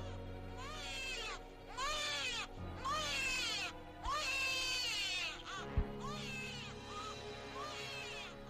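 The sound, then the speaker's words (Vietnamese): Shrill, high-pitched wails of a newborn baby crying in a room of an old house, a long series of rising and falling cries that repeat with little pause. A single brief thud sounds near the middle. “thì có tiếng trẻ con khóc ở gian bên trái vang lên choe choé choe choé. Đúng là tiếng khóc của trẻ sơ sinh, nghe đến rợn người.”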